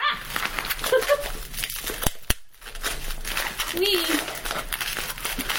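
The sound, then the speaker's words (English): Crinkling bubble wrap being peeled off a Welsh flag mug during an unboxing: a continuous crackly rustle of plastic with a few sharper snaps and clicks scattered through it. “Here's the Welsh flag mug that I ordered. I have to take all this bubble wrap off of it.”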